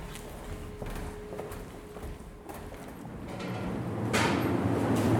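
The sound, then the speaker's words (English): Footsteps of people walking downstairs toward an old Victorian passageway: a series of irregular hard steps and knocks over steady background noise, growing louder toward the end. “Okay, we're going to go back downstairs now and take to the oldest and coldest Victorian passageway. Okay, let's follow me this way.”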